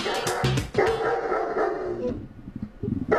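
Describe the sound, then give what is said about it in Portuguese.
A German shepherd barks from a kennel as several loud, sharp barks burst out in quick, uneven succession, with a few softer yips between them. “Opa! Pastor alemão? Pastor alemão, é. O latido do pastor é inconfundível, né?”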